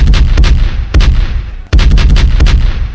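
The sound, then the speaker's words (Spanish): Gunshot sound effect: loud, rapid gunfire in three dense bursts, each made of sharp cracks over a heavy low boom. It plays alone, without voices. “Bien, eran los disparos en Parte del Aire, nuestra sección favorita, como cada sábado.”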